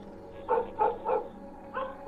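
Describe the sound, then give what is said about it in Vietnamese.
A dog barks fiercely in five short, jerky bursts: three in quick succession, then two more after a brief pause. The barks are fairly loud and come with no voices. “Con chó nó sủa dữ lắm, tiếng cứ giật giật, nhát gừng.”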